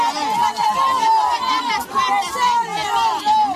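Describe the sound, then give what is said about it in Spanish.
Protest crowd of Galician mothers demonstrating against drugs: a dense, continuous babble of many raised voices, loud and steady throughout with no single voice standing out. “Este es el sonido de las madres gallegas contra la droga. Muchas de ellas se manifestaron por la rabia,”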